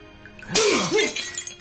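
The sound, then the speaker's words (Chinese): A porcelain plate smashes into shards: a sudden bright crash with a quick second burst, followed by a trail of small, scattered clinks from the fragments. “这盘子的碎片可以给你血的惩罚。”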